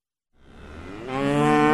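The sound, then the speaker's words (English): Dairy cattle moo at the Riverview Dairy Farm in Chippewa County: a single long, deep, resonant moo with rich harmonics that swells gradually and grows louder toward the end, with no talk. “Co-owner Matthew Holub told Barnes his family has been milking cows there since 1918.”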